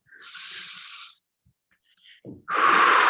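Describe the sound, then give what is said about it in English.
A deep breath taken during a guided meditation session: a long, airy inhale lasting about a second, a quiet pause, then a louder, rushing exhale. “And take a deep breath.”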